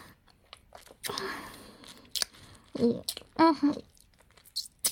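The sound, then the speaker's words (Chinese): Soft mouth sounds of someone eating a cream-filled ice pop on a hot day: wet licking, sucking and squishy bites in a few uneven bursts, fairly quiet with gaps between them. “我在吃冰棍，现在好热。”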